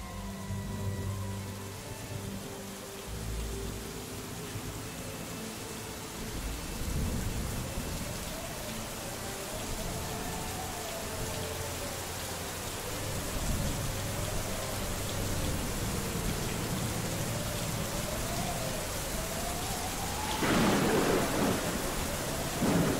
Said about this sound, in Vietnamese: Mây đen vần vũ trên trời, mưa sắp đến rồi.